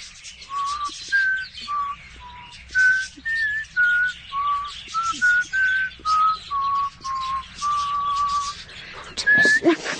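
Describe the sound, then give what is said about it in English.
A person whistles a simple, halting tune alone. Many short, clear notes step up and down, separated by brief gaps over a faint hiss, and a higher note comes near the end. “I'm no whistler, such as you pretended. Nonsense. Try it. Go on, let me hear you.”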